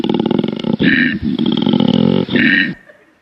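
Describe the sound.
A male tree-dwelling animal in rut gives a deep mating call: loud, low, rumbling roars in two long pulsing phrases. Each phrase ends with a higher rasping snort, and a brief grunt falls between them before the sound stops.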